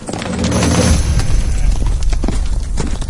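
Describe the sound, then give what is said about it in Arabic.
Horse coming to a halt: a dense, continuous clatter and scuffling of hooves and movement, fairly loud, with no distinct separate beats. “خليني نوقف نرتح السرج فوق الحصان ونسمع حديثهم”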